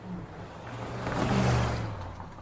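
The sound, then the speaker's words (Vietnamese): A vehicle engine speeds away with a low droning hum that swells to a peak midway and then fades, with no voices over it. “Nghĩa Sẹo vừa kéo bạn mình lên xe rồi tiếp tục phóng đi”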